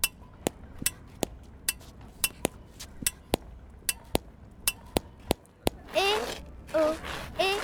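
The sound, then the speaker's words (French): A coin strikes a metal pipe in many sharp, bright clicks at a quick, fairly even pace, faint against a quiet background, and then a few brief vocal sounds follow at the end. “bruit de pièce contre tuyau.”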